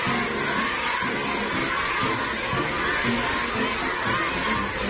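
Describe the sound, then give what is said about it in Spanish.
Dense crowd noise as a head of state, the US president, arrives in China: a loud, continuous wash of many voices, with shouting and cheering mixed throughout and no pauses. “Este es el sonido ambiente a su llegada, la verdad. Podría ser el ambiente de la fiesta de mi calle, pero háganme caso, es el ambiente de la llegada de Donald Trump a China.”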